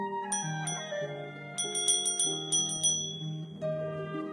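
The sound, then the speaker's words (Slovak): A small bell rung at a door gives many bright, tinkling strikes at shifting pitches, coming in uneven bursts with ringing tails between them. The bell is heard alone, with no talking. “Niekto zazvonil na zvonček.”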